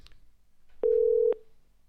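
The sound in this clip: A single telephone ringback tone sounds as an outgoing call rings through to a listener. It is a steady, mid-pitched beep lasting about half a second, loud against an otherwise quiet background.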